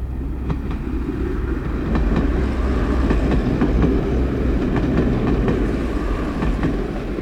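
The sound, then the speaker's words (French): A Eurostar high-speed train runs on the rails between London Waterloo and Paris Gare du Nord, with a loud, steady rumble and many sharp, regular wheel clicks over the rail joints. “existe maintenant un train à grande vitesse qui part de Waterloo, au centre de Londres, et qui se rend plusieurs fois par jour à Paris, gare du Nord, au cœur de la ville.”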